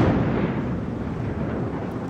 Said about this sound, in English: explosives were used to break down a massive segment of the collapsed Francis Scott Key Bridge, a span that landed on the bow of the stuck container ship Dolly. The controlled demolition will allow the Dolly to be refloated